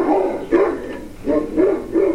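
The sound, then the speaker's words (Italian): A dog barks furiously in a quick run of sharp, mid-pitched, loud barks with brief gaps between them. “preceduti da Punti, che continuava ad abbaiare furiosamente”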